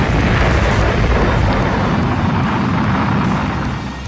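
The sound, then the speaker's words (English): A rocket launch rumble as a sound effect: a dense, loud, steady roar with a deep low end, easing off slightly near the end. “We are cleared for takeoff. 10, 9, 8, 7, 6, 5, 4, 3, 2, 1, fire!”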